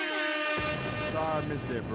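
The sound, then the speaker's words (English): Air horn sound effect: brassy, blaring horn tones sound loud and continuous. The blast thickens with a layered tone just after the start and holds without a break to the end. “can I give Supermax his air horns?”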